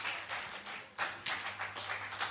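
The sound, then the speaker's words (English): A church audience clapping their hands during a service, many hands striking together in a steady rhythmic beat, fairly loud and continuous over a low hum. “Clap your hands for the Lord.”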